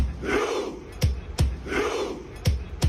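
Norwegian football fans cheering after a match: a loud crowd roars in rising and falling chant-like swells, punctuated by a few sharp, heavy claps or stamps landing in pairs.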